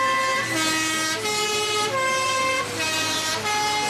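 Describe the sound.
The three-tone horn of a Swiss postal bus, used as a warning on mountain postal roads, sounds loud and brassy, cycling its three-note call several times in a steady repeating pattern.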